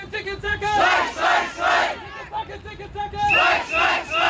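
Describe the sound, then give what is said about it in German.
Striking Charité hospital workers outside Berlin's Haus der Statistik loudly greet negotiators from the Left, Greens and SPD. A crowd chants and shouts in rhythmic, surging bursts, with whistles sounding over the voices. “Lautstark werden die Sondierer von Linken, Grünen und SPD vorm Haus der Statistik in Empfang genommen. Von Streikenden der Charité, die den Verhandlern gleich ihre Erwartungen mitgeben”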